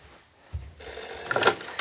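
A telephone rings, with a steady bright ring that starts suddenly after a soft thump and carries on to the end.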